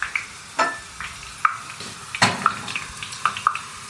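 Leek greens frying in hot oil at about 120 degrees give off a scattered sizzle of small crackles and sharp pops, irregular and fairly quiet, with no talking.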